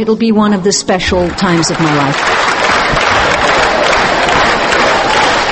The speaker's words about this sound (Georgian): აი ასეთი ოვაციებისა და გადასებული დარბაზის ფონზე ჩაიარა წარმოდგენა.